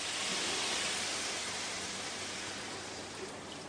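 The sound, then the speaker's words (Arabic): Water poured into a cooking pot for a tomato-free dish makes a steady, even rushing pour that holds throughout and eases slightly toward the end, with no talk. “بنديها شويه ميه صغيرين.”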